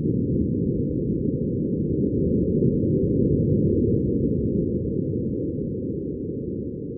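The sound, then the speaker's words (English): Martian wind buffets the microphone on NASA's Perseverance rover on Mars, giving a steady, loud, low rumbling roar with no higher tones that keeps a constant level throughout. “Here's the sound of Martian wind hitting the microphone.”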